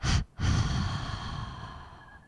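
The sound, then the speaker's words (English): A slow exhaled breath during a guided breathing exercise: a brief breathy burst, a short pause, then a long, soft exhalation that gradually fades out. “Breathing in. Holding and exhale”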